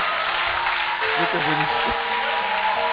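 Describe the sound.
Congregation applauding in church, a dense wash of clapping mixed with voices for about three seconds.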